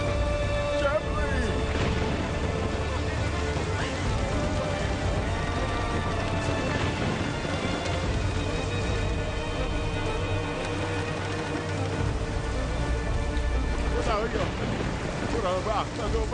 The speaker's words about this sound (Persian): برادرم جبرئیل، کشتی طاقت این طوفان را ندارد.